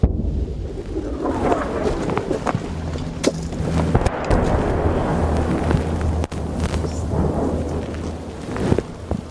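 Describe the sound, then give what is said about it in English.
The receding end of a full Russian artillery barrage in Ukraine, with shells exploding: a continuous low rumble broken by several sharp cracks and booms throughout, and no voices. “We're at the receding end of a full Russian artillery barrage.”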